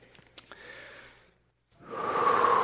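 A deep breath: a few faint breathy puffs and a soft hiss come first, then a long, loud rushing breath fills the second half.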